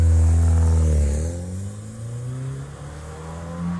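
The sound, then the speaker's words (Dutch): A Porsche sports car engine revs loudly. Its pitch drops after about a second and then settles into a lower, steady drone. “Ja, ik ben niet een enorme kenner dat ik nu zeg, ik weet wat het is, maar het is een Porsche.”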